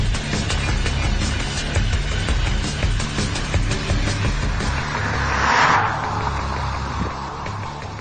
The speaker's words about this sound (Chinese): 澎湃的声浪在日常使用之余，能给你一些额外的驾驶乐趣，这就是新斯铂瑞的设计理念了。